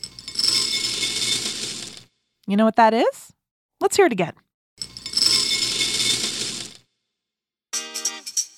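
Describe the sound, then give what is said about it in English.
Dry cereal poured into a bowl at breakfast makes a dense, crisp rattling patter in two separate pours of about two seconds each, with a person speaking briefly between them. “Is it cereal? It's cereal.”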